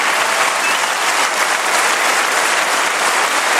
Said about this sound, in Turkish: Parlamentoda yemin etti, hem meclis binasında hem de parlamento dışında töreni takip eden binlerce vatandaş tarafından alkışlandı.